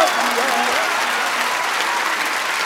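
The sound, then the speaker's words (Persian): Hands clap in dense, steady applause from an audience at a religious gathering where verses praising the Prophet and Ali are recited. The clapping stays loud and even throughout, with voices mixed in. “در حضرت زهرا اینجوری دست نزنی ها.”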